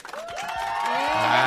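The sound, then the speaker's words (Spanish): A canned applause sound effect bursts in, clapping mixed with crowd cheers and whoops that swell steadily louder over the short stretch. “Yo les dije que íbamos a tener aquí los aplausitos, entonces ahí está. También para cuando tengamos aquí al invitado.”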